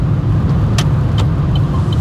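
Steady low engine and road rumble of a car driven by a learner on a driving lesson while approaching traffic lights, a loud, continuous drone with no talk.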